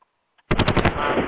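Gunshot sound effect: a loud burst of rapid machine-gun fire that starts abruptly after near silence, with many quick shots running together into a continuous roar.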